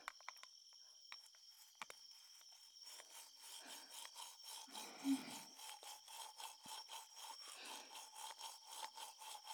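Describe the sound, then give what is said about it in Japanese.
A toothbrush scrubbing someone's lower teeth: faint, quick, rhythmic rubbing strokes that begin after a quieter start and continue steadily to the end. “お口を開けていただけますか？はい。下の歯から磨きますね。”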